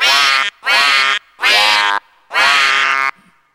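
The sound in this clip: A duck gives four loud, nasal quacks in a steady rhythm, each lasting about half a second. A faint trailing sound follows the last one.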